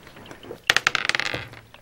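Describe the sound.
Dice rolling on a table during a tabletop game's hit-dice roll: a quick, bright clatter of many small hard knocks that bunch together, then thin out and settle within about a second.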